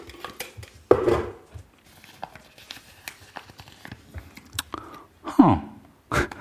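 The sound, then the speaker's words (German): A hand rummages through paper slips in an old coffee tin, making many irregular rustles, light clicks and metallic knocks, soft at times and with a few louder bursts. “eine alte Kaffeedose mit immer weniger werdenden Zetteln, auf denen die noch offenen Jahreszahlen notiert sind. Ich greife mit der rechten Hand in die Dose, mische ein bisschen durch und ziehe folgendes Jahr.”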